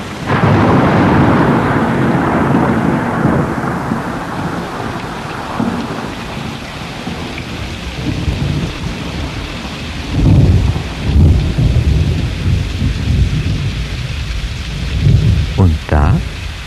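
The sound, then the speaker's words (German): Heavy rain and a thunderstorm mark the start of the rainy season: a dense, steady downpour hiss runs throughout, with deep rolling rumbles of thunder swelling in the later part. “Im dramaturgisch genau richtigen Moment begann die Regenzeit.”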